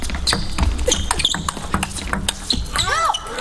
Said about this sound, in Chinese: 还是用正手发砍式发球